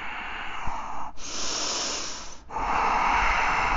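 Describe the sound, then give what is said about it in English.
Slow, deep breathing during a yoga session: three long, airy breaths in succession, loud and breathy, with no talking. “Inhale. Exhale. Inhale. Exhale.”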